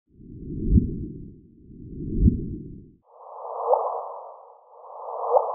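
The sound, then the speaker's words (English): Sonified chirp of two black holes colliding: four swelling whooshes, each peaking in a quick upward-sweeping chirp. The first two are deep and rumbling; the last two repeat the pattern at a noticeably higher pitch. “This, then, is the sound of two black holes colliding.”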